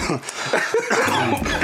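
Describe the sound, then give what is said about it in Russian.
A man choking and coughing after something goes down the wrong way: a few harsh, raspy bursts in quick succession, fairly loud, with no words spoken. “Это я поперхнулся.”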